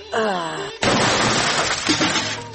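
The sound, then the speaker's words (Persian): A door is broken in with a loud, sustained crash of breaking and shattering that erupts suddenly after a brief voice and lasts under two seconds before cutting off. “بیا که دروازه رو بشکنانیم”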